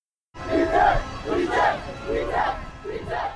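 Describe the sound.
Protesters chant at a demonstration against Kenya's finance bill 2024. The crowd voices rise and fall in a steady rhythm, with repeated shouted phrases at a loud, even level.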